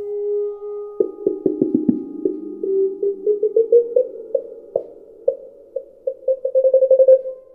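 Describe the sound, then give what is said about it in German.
An ondes Martenot played by Thomas Bloch in a demonstration of its range: a smooth held electronic tone gives way to many quick staccato notes that climb gradually in pitch and speed up toward the end. “wir hören Thomas Bloch, der eine Ondemarte No Demonstration quasi macht, seine unterschiedlichen Möglichkeiten zeigt.”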